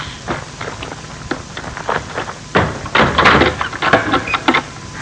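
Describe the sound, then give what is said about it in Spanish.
A wooden rocking chair bumping down a staircase by itself, heard as many irregular hollow knocks and thumps that grow louder and denser in the second half. “Es como si alguien estuviera bajando. bajando la mecedora por las escaleras.”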